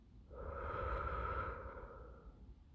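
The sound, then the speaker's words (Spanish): Deep breathing during a mindfulness relaxation exercise, in through the nose and out through the mouth: one long, slow, airy breath swells and fades softly, faint and alone. “Cierra los ojos y respira profundamente por la nariz y sácalo por la boca.”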